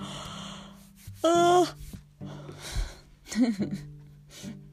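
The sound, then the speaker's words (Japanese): A loud voiced yawn right beside the microphone: a drawn-out tonal groan of about half a second, with quieter vocal sounds around it. “あ耳元であくびすんなって思わない？しかも声出しながら。”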